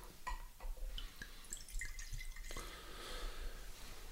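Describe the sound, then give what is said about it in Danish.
Wine, a Domaine Alary Tradition, being poured into a glass gives a faint trickle with a few soft, irregular drips over a quiet background. “nu skal vi lige have noget vin i glasset.”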